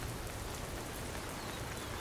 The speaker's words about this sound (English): a giant raindrop plopped on the basket. It was quickly followed by more.